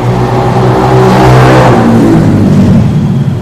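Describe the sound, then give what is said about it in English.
A motorcycle engine revs in a loud, sustained mid-pitched drone with a strong harmonic tone, holding steady and then shifting slightly partway through. “That's just our motorcycle, guys.”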